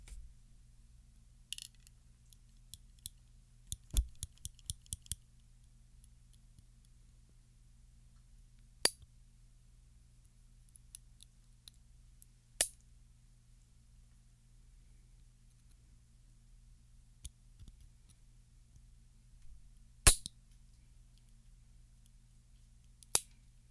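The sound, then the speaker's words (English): Sharp clicks of nail clippers trimming fingernails. A quick cluster of several snips comes early, then isolated clips follow at uneven intervals over a faint, steady low hum. “I've got some nail clippers with me. I think I really need to trim up my nails.”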